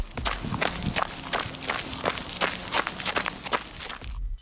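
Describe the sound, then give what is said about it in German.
Footsteps of someone jogging on a gravel path make many crisp, crunchy crunches in a steady, quick rhythm. They are fairly faint and continue throughout with no voices. “Das klang irgendwie so knusprig, als würde jemand über einen Schotterweg laufen. Ist da vielleicht jemand am Joggen? Ganz genau.”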